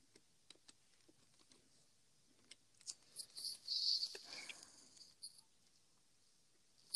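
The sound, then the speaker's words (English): Faint keyboard clicks as a password is typed on a computer: a few sparse, sharp taps, then a louder cluster of clatter mixed with a soft hiss, all quiet and without talk. “Okay, password time. Type in the password to the computer. I almost forgot what my password was.”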